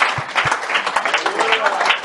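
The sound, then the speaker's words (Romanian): Audience applause at a church convention: loud, continuous clapping from many hands, with voices mixed into the noise throughout. “Let's give him a hand.”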